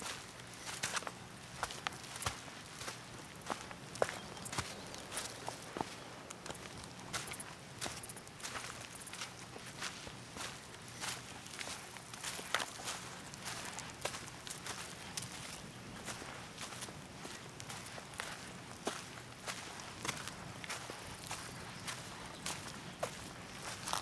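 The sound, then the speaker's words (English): Footsteps on a canyon trail as a steady, unbroken run of soft, gritty crunches, faint and even in pace throughout, with no voices. “follow the trail up the other side of the canyon all the way up to the top. Remain present and watch your step. As you walk, remember your breath.”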